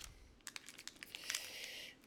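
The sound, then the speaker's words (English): Crinkling and tearing of a hockey trading card pack being opened and handled with care, a rapid run of small crackly bursts that settles into a steadier papery rustle, with no talking. “Trying to be really careful with these cards because I don't want to hurt them. Oh, that's a base pack.”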